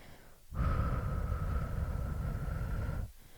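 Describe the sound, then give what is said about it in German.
A slow, controlled exhale through the mouth in a relaxation breathing exercise, one long steady breath of about two and a half seconds with a breathy hiss and a faint whistling tone, heard alone. “Atme nun jetzt sofort langsam und kontrolliert durch den Mund aus und zähle bis 4.”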